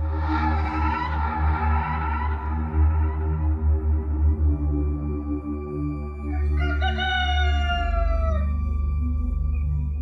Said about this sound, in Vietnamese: Tiếng gà gái nối tiếp nhau vang vọng khắp cả xóm chài ven sông.